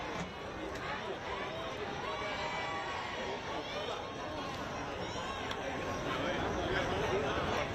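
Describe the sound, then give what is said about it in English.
A raucous, rowdy crowd in Bangkok welcomes former Thai prime minister Thaksin Shinawatra on his release from prison on parole, a dense, steady roar of chatter and shouting that continues throughout. “The former Prime Minister Thaksin Shinawat being released from prison on parole to a raucous, rowdy welcome.”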